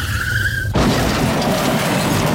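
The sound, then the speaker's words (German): A car's tires squeal in a steady, high whine as it skids, then an abrupt loud crash as it is hit from behind on the road toward Rimini, followed by a sustained broad roar of noise. “fährt einem so ein Vollidiot hinten drauf”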